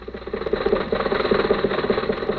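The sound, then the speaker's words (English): A car engine runs steadily with a throbbing mid-low rumble and rapid, even pulsing, heard alone without voices. “So let's go back and pick up Jack and Rochester in the car.”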